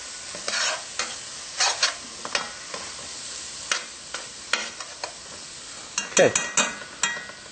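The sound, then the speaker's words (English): Red pepper flakes are stirred in a sizzling pan, a steady low fry under many short, irregular scraping and clinking strokes from the stirring. “And our red pepper flakes. This is optional. Okay, if you want a little spicy, you would put that in. We'll stir this around, let all those flavors blend together.”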